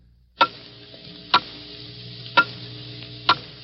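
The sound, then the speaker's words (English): Clock ticking off the last seconds of the year in a New Year countdown at the close of 1950: four sharp, evenly spaced ticks about a second apart, with a faint steady hum between them. “Hear it? Those are the last fading moments of 1950. The clock is steadily counting them out.”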